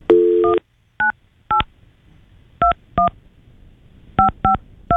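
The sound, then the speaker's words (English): An international number is dialed on a telephone keypad. A short tone burst is followed by seven crisp keypad beeps that come in uneven clusters with gaps between them, and no voices can be heard. “You got to dial 011, which is the U.S. International Exit Code. Yeah. All right. 011. And then you dial 98.”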